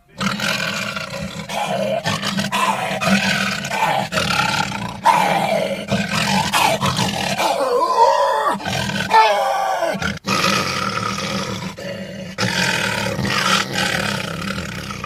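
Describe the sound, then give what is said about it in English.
A man's voice imitates lion roars by screaming into a trash can, creating growling roars for animated lions. The roars are loud, rough and drawn out, forming a near-continuous run with brief breaks. “Mufasa's roars are incredibly powerful, but these sounds weren't taken from a lion, and you're really listening to a dude called Frank Welker screaming into a trash can.”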